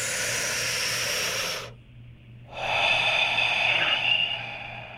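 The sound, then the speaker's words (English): Deep, forceful breathing during a relaxation exercise: one long, loud rushing breath, then a short quiet pause, then a second long, airy breath with a big exhale. “Let's do a big exhale and fill our lungs up huge.”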